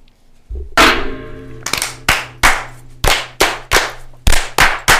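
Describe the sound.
Glasses are banged down on a table in unison for a lodge toast. The result is a rapid, rhythmic volley of many sharp, ringing clangs.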